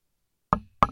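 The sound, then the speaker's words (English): Knocking on an empty glass wine bottle: two sharp, hollow knocks, each with a brief ringing tone, separated by a short pause and otherwise silent. “That's the sound of an empty wine bottle and an empty soul.”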